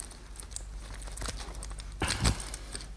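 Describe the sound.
Seat belt unbuckled aboard a spacecraft in a 1954 radio drama: a few soft rustling clicks and scrapes, the strongest cluster near the end, over a low steady hum.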